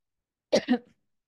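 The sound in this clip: Throat clearing and a cough from a person with a very dry throat: two short, rough bursts close together, the second trailing off quietly, with no talk.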